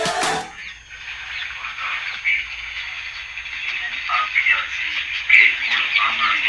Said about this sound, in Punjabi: ਬਿਲਕੁਲ ਸਹੀ ਹੈ ਜੀ ਕਿ ਇੱਕ ਚਿੜੀ ਆਪਣੇ ਆਲ੍ਹਣੇ 'ਚ ਬੈਠੀ ਹੈ ਔਰ ਬੜੀ ਪਿਆਰੀ ਜੀ ਹੈ।